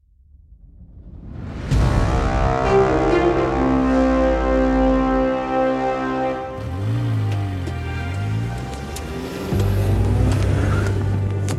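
A car drives along on the way into work in Hollywood. Its engine drone swells in over the first seconds and then holds steady, with the pitch sagging and climbing again partway through, as with a gear change.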